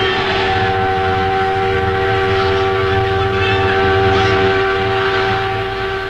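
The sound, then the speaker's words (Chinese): A freight train bound for Nanjing gives a loud, steady rolling rumble, with a sustained tonal whine holding level throughout and no voices. “火车是开南京的，工人弟兄们欢迎我们上车。 好，就这样吧。好， 同学们，客车不让我们上，我们乘坐这辆货车南下示威，同学们上车了。”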